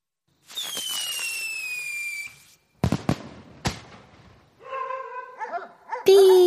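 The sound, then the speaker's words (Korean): A whistling firework lit from a fuse stuck in a flowerpot of soil in a backyard shrieks with a high whistle that slides slightly downward. A few sharp bangs follow, then neighbourhood dogs bark and whine excitedly. “삐익! 타타타타탕! 요란한 소리와 함께 불꽃이 폭발했다.”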